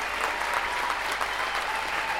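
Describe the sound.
Audience applause for a band after a concert at the Tonhalle, a dense, unbroken wash of clapping at an even, moderate level from start to finish.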